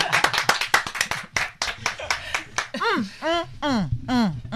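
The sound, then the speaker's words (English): Hands clap at the opening of a show in a quick, uneven run of many sharp claps. Voices then follow with drawn-out, sung or hummed sounds. “Oh no, we must clap.”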